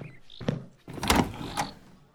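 Door being opened after someone calls to be let in, a few dull thuds and a brief sliding scrape, fairly loud and alone.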